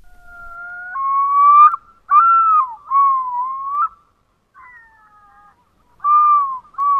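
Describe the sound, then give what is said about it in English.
A yellow-billed loon calls from a hotel fountain in Las Vegas, far south of its northern range. Loud, pure, wailing notes hold a steady middle pitch in several phrases, with a faint stretch and a pause before two final phrases. “That is the sound of a yellow-billed loon, a bird that lives in the far north and rarely strays south of Canada”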